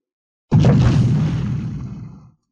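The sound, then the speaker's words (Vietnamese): A loud explosion sound effect in a fantasy audio story hits with a sudden, sharp onset. It becomes a deep booming rumble that fades over about two seconds, heard alone without speech. “Tiếng nổ mạnh từ một phương hướng khác truyền đến.”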